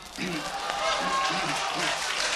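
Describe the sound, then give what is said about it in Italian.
Audience applause just before a song, a steady wash of clapping that fills the whole stretch, with a voice talking over it. “È un momento, ancora non ho cantato, già applaudito.”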